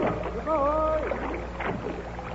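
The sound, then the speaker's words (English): Oar strokes and water splashes come from a rowboat rowed in mid-Atlantic toward a drifting, slime-covered ship. A few rhythmic strokes sit under a man's speaking voice. “Shall I put the boat alongside? Yes, let's get to the bottom of this queer thing. A few more strokes there, and we'll board her.”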